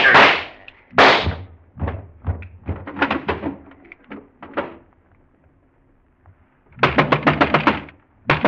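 Gunshots in a shootout: a few sharp bangs spaced apart, then a quiet gap, then a rapid burst of many shots near the end.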